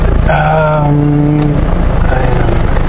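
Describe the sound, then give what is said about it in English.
Steady car driving noise on a road outside Colombo: a low, constant rumble with a sustained tonal whine layered over it, holding even loudness throughout. “Errands are complete. Now I am driving back to Colombo.”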